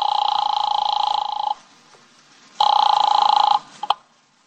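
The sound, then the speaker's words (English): An office telephone rings after dialing: two long, bright electronic ring tones separated by a silent pause, followed by a couple of faint clicks. “I grabbed the office phone and dialed Wolf at once.”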